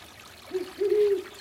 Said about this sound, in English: an owl is hooting, the water singing me to sleep.